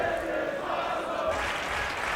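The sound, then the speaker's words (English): Wrestling crowd chanting "This is awesome" during a match: a steady mass of voices at a moderate level that rises in unison and carries through the whole clip. “Only a two count. This is awesome chant from the crowd.”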